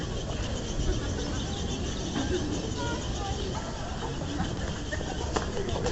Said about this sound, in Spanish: Como pueden oír, parecen bebés. Bueno, desde aquí yo no puedo ver. Pero parecen bebés pájaros en la palmera.